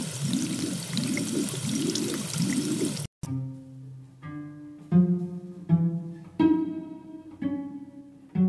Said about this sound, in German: Und als er sein Gesicht mit Wasser zu kühlen versuchte, verschlimmerte sich das Übel nur noch.